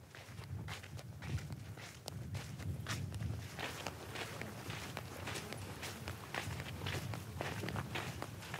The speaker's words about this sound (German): Nach einer Wanderung auf der Suche nach Futter ist es jetzt Zeit, mit den Kamelen zum Zelt zurückzukehren.